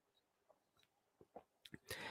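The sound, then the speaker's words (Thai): A man sips a little water: a few faint wet mouth clicks and small swallows, ending in a louder breathy gulp. “กินน้ำนิดนึงครับ”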